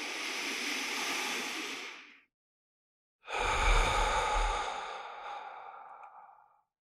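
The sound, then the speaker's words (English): Deep breathing with an emphasized long exhale: two long, breathy, airy breaths separated by a short pause. The second is fuller and fades away slowly. “Take a couple of big, deep breaths, emphasizing the exhale.”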